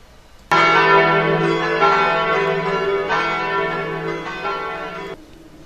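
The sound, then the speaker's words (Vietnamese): A church bell tolls loudly, with a few heavy strikes blending into one sustained, humming ring that fades slightly before cutting off. “Tiếng chuông nhà thờ, dấu hiệu báo cái khoảnh khắc giao nhau giữa ngày và đêm.”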